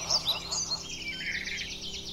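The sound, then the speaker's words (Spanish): Birds whistling and singing in the Aguaragüe range: a few sharp high chirps at first, then a faint rapid warbling trill that holds on, over a low steady background hum. “los sonidos que hay son los silbidos de los pájaros, los cantidos de cada ave que uno escucha”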